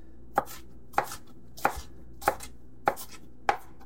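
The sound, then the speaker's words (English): A knife mincing food into coarse slices: six sharp, evenly spaced chops about every 0.6 seconds, each a crisp quick strike, fairly faint and with no talk. “I'm going to give it just a nice, good mincing. Now, it doesn't have to be exact. Some nice coarse slices,”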